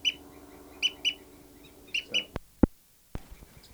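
A female bird gives a fight call as several short, high, sharp chirps, some in quick pairs. A few abrupt knocking sounds follow, all faint against a quiet background.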